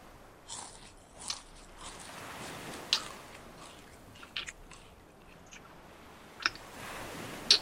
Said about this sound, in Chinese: 像这样轻轻咀嚼几下